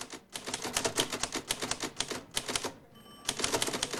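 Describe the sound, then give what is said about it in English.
An elderly secretary types on a typewriter at a desk in an outer office. Rapid, uneven keystrokes clatter in quick bursts, break for a brief pause near the end, then the typing resumes. “An elderly secretary types at a desk.”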